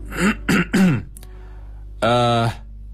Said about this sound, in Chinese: 我站起来清了清嗓子